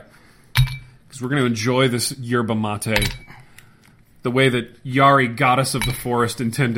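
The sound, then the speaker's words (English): Ice cubes drop into glass tumblers, giving a few sharp, glassy clinks and rattles under a person speaking steadily throughout. “this is the sound of ice being dropped into some tumblers.”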